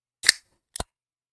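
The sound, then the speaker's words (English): A can is opened right up against a microphone, giving two brief sharp bursts: a louder crack followed half a second later by a shorter snap, with silence around them. “All right, here's the can opening. I'm not going to try to hide it. I'm going to put it right up to the mic so everybody can hear.”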